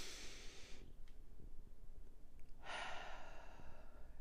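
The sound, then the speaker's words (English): A person takes a deep breath, heard as two airy rushes of breath separated by a short pause, the second longer than the first; quiet, with no talking. “Let's take a deep breath.”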